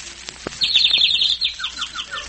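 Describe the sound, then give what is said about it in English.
A small bird in a tree chirps in a rapid, high trill of short notes, followed by a looser series of fainter tweets over a few soft knocks. “look at the little bird over there in the tree. Isn't he pretty?”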